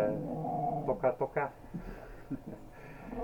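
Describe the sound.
A dog in a studio gives a few short, whimpering yips in quick succession, moderately loud, amid people talking.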